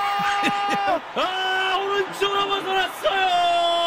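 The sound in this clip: A studio audience cheers with loud whoops and sustained yells, several voices rising and holding their pitch in short bursts.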